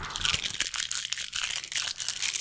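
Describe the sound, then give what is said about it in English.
A can of Monster energy drink is opened, giving a continuous crinkly, crackling fizz with a few sharper crunchy bursts. The sound is fairly quiet and no one speaks. “Opening up my monster beverage.”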